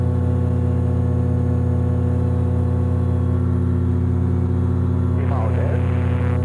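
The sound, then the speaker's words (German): A motor glider's engine drones steadily as the aircraft climbs at about 95 km/h, its propeller built for fast climbing. The low hum with strong, even harmonics holds unchanged throughout. “Ich habe den Motor jetzt ungefähr 5 oder 6 Minuten laufen lassen, bin relativ hoch gestiegen.”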